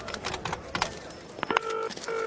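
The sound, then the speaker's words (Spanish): A telephone number is dialed, with a few soft clicks and taps followed by a couple of short touch-tone beeps, all fairly quiet and without talk. “saca un papel y marca otro número.”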